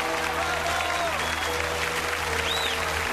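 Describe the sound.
An audience applauds a performer at the end of a stage concert. The clapping is dense and unbroken, holding at an even level throughout over a low steady hum.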